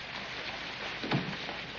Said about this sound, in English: Outside, it's raining.